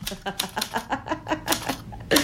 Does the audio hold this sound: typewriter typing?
yes